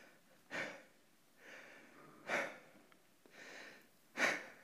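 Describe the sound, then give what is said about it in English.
Heavy, faint breathing from someone catching their breath while lying down after exertion, with three sharp, strong breaths alternating with softer, longer ones in a slow, labored rhythm. “he started getting a little winded. So he decided to lay down and catch his breath.”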